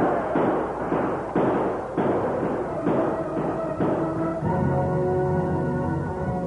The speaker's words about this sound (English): Quickly, the outlaws and the Sioux dismounted and took cover as the troopers opened fire.